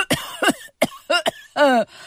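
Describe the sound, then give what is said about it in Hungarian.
A voice imitates coughing: several short, harsh bursts in quick uneven succession, then a longer drawn-out cough at the end, heard alone without other talk. “Prüszkölni fogtok, és így köhögtök.”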